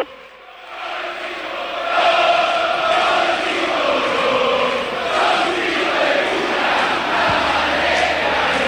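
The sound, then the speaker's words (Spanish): Crowd roar at the Lanús football stadium on a night match, quieter at first and then swelling after about two seconds into a loud, sustained mass of voices with chant-like tones running through it. “El público de Lanús muy metido en todos los temas.”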